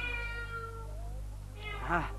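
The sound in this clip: A cat meows, a short bright cry near the end that stands out over a steady low hum, with fainter tonal cries before it.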